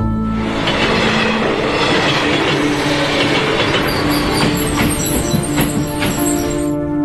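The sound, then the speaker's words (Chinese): A train leaves a station platform on the last run of the night, a dense, loud and steady rumble and clatter of wheels on rails, with thin high squeals rising over it in the second half. “黄金丁线最后一班列车马上会开出，乘搭呢班车嘅乘客请从速上车，请小心列车与月台之间嘅空隙。”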